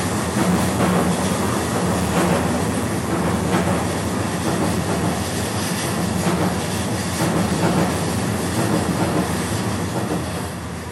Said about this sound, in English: I'm gonna wait for this train to pass.